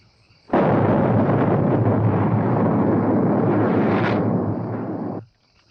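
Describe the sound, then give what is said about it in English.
A house blowing up and catching fire: one loud, deep explosion that swells into a sustained rumbling roar for about five seconds before cutting off abruptly. “Well, be doggone. Your place blowed up, Nick. It's on fire, too.”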